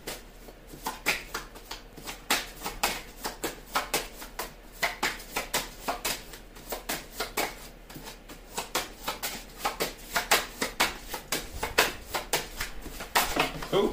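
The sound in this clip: Playing cards being shuffled and drawn: many quick, crisp flicks and slaps in uneven bursts, fairly soft and continuing throughout.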